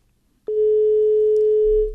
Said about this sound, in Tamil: Line cut ஆயிடுச்சு madam.